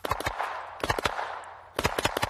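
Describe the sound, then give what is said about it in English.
Paintball gun shots fire in quick bursts at a paintball field, sharp popping cracks grouped into three rapid clusters over steady background hiss, with no voices. “So they just hit me with about 14 shots right in my stomach while I was wearing the chest protector.”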